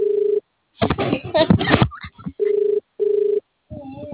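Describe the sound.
Ringback tone of an outgoing phone call: several short, steady buzzing pulses separated by gaps, with a person speaking between the pulses.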